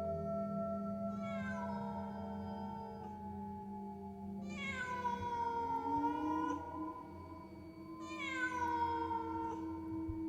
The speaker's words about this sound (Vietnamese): Con mèo nhảy vọt sang né tránh, rồi kêu mấy tiếng ai oán, đoạn khuất sau lũy tre.